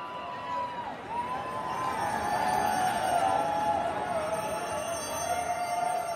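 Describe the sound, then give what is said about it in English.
A crowd of fans cheers at a ticker-tape welcome in Lower Manhattan, New York City, for the U.S. women's soccer team after its win in France. The cheering is a steady, fairly faint roar that holds throughout. “After that big win in France, the women are given a hero's welcome in New York City.”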